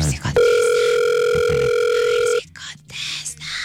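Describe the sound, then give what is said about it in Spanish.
A telephone rings with one long, loud, steady electronic tone that cuts off abruptly. Voices follow. “Está timbrando, muchachos.”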